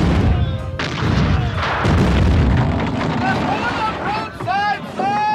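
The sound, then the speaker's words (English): Naval guns firing during a sea battle, a heavy, continuous rumble of booming blasts and rushing wind-like noise, with shouting voices rising near the end. “Make ready the guns! Form a line of battle! Make ready the guns! Form line of battle! Guns ready, sir! Fire at will! Fire!”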